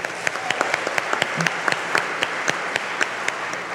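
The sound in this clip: Audience applause after a speaker introduction at a Memphis arts community event: a dense, steady wash of clapping with a few sharper individual claps standing out, continuous throughout.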